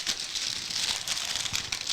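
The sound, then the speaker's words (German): Crinkling of a silver, non-transparent plastic pouch as it is handled and pulled out of packaging, a steady, dense rustle of fine crackles throughout. “Einen silbernen Plastikbeutel, den wir rausziehen können.”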